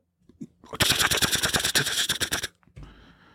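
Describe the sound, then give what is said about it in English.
A voice beatboxes a blast beat drum pattern, imitating very fast snare hits as a dense rapid string of sharp percussive bursts that lasts about two seconds and then stops abruptly. “What's really funny is your microphone cuts out every time you do the beatbox. It's like if you were doing hitting the snare drum, it would be like super, super fast.”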